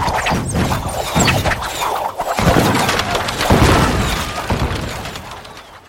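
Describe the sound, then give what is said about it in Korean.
Cannons firing in a dramatized battle: a dense, loud, continuous roar of booms and crashing, shattering noise that stays heavy throughout and tapers off slightly at the end. “궁사들은 활을 쏘고 보스들은 철안을 쏘아 날려라! 총통을 모두 가동하여 적을 공격하라!”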